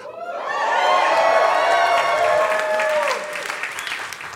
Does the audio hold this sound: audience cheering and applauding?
yes